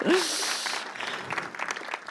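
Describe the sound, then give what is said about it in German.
Audience applause at a church service, with the audience clapping for a band member. The many claps blur into a dense, continuous wash that holds for about two seconds. “Wollen wir dem Mann Applaus geben?”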